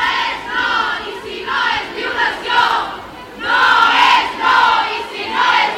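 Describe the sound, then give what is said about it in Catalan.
A crowd chants feminist slogans at an evening Women's Day demonstration in Olot, loud unison shouts that rise and fall in repeated rhythmic bursts. “Han estat alguns dels lemes que s'han cridat aquest dimarts al vespre a Olot en la manifestació amb motiu del Dia de la Dona.”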